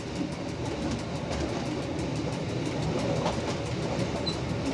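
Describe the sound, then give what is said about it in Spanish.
A train pulling into the station at Bronte, on the western slope of Etna: a steady rumble of rolling wheels with fast rhythmic clatter, evenly loud throughout and free of talk. “Tras hora y media de viaje, Rosanna llega con el tren a Bronte.”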